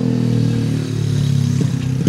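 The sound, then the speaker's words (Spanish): A small motorcycle with a loud exhaust goes by, its engine buzzing in a steady, harmonic drone, with a few rattling clatters near the end. “Ahí pasa la motito de todos los sábados, con el escape.”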